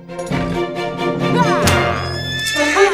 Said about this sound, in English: He shrugs, then flicks his reins, making his horse rear up.